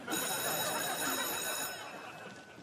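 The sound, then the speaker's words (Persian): A school bell rings in one continuous shrill, metallic tone that fades slightly toward the end. “این زنگ دوم بود، برین سر کلاس”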